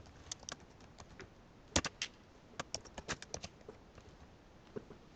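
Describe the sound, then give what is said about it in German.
A word is written down, heard as faint, sharp tapping clicks in irregular bursts, with a louder cluster near the middle and sparser taps toward the end. “Das Thema der Verheißung, ich schreibe es mal hin.”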